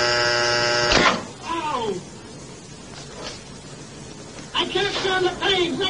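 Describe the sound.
Shock generator buzzing as a 180-volt shock is given in a teacher-and-learner experiment: a loud, steady, harmonic buzz lasting about a second, followed by voice sounds and further buzzy, tonal bursts near the end.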